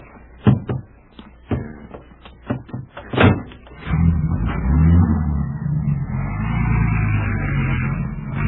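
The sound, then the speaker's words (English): Car doors thud shut several times in quick, uneven succession before a station wagon's engine starts up and keeps running steadily as the vehicle pulls away. “We haven't time to do anything but get in and drive away. All right. Well, hop in quickly, boys.”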